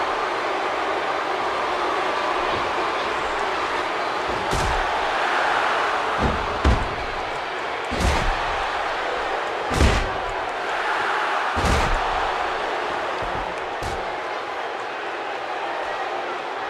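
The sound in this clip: Wrestling body slams played back from a video: several heavy, booming thuds land one after another every couple of seconds over a constant low background rumble.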